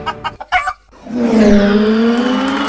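A race car's tires squeal in a loud, sustained, strongly tonal skid that holds steady for nearly two seconds. It follows a few short, choppy bursts of sound at the start.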